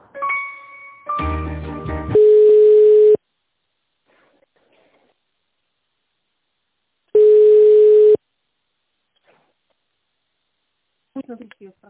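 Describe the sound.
Telephone line tone while a business call is being transferred: two steady, mid-pitched beeps, each about a second long and separated by a long silent gap, following a short burst of other sound at the start.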